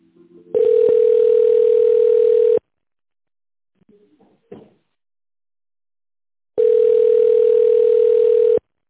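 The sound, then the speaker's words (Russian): A telephone ringback tone plays while a call is being transferred: two long, loud, steady low-pitched tones about two seconds each, separated by several seconds of silence broken by a few faint brief clicks. “Так, наверное, с Дарьей. Попробую вас соединить сейчас.”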